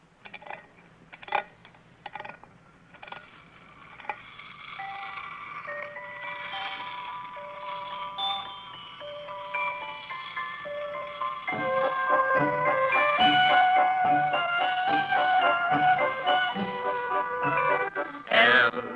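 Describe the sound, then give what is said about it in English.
A wind-up toy merry-go-round plays a tinkling, music-box-like melody after a few sharp clicks at the start. The tune runs steadily and grows louder and fuller about midway. “it's a little toy merry-go-round. Well, what do you want that for? Well, now, here, let me show you. First, you wind it up, and then you release the lever, and it spins around and plays music.”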